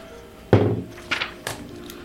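Dice rolled on a table for an attack roll in a tabletop game land with one solid thunk, then a few lighter clicks and taps as they tumble and settle.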